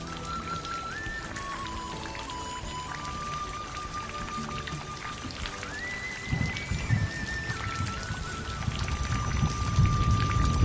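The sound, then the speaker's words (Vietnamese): Raindrops hitting a bamboo curtain make a steady, dense patter that grows heavier and louder toward the end, with a sustained tonal line running through it. “nghe giọt mưa đánh vào trên màn trúc”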